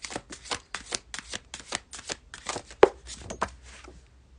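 Tarot cards being shuffled for a card pull, a quick, regular run of many soft riffling bursts with one sharper snap partway through, fading out at the end with no voices.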